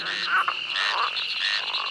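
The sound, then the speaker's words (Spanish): Frog croaking fills the whole stretch: a steady, buzzing chorus of rapid croaks that swells in a few pulses, moderately loud and with no talk. “Ranas que viven sin comer.”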